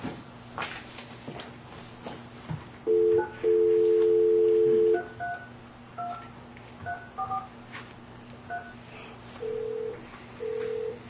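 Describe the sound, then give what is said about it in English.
A telephone number being keyed in during a county board meeting call-in: a series of touch-tone beeps, one held long and the rest short and irregularly spaced, over a low steady hum. “So I will be dialing that number as you guys pull that up.”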